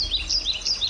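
Birdsong in open countryside in northern Baltimore County: a few high, quick chirps repeating in an even rhythm, fairly soft over a low background rumble.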